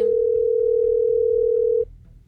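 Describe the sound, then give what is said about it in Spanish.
Ringing tone heard by the caller on an outgoing phone call: a single steady, mid-pitched electronic tone that holds loudly for almost two seconds and then cuts off, leaving faint low background hum. “Ahí está sonando, va. O sea, si no contesta.”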